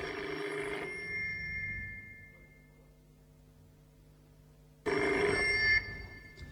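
A telephone bell rings in two bursts separated by a quiet pause of several seconds. The first burst is short and the second runs longer, bright and steady, with no voices.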